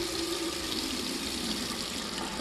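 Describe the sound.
Water runs steadily from a tap into a sink in a bright room with mirrors, a continuous, even hiss with no breaks.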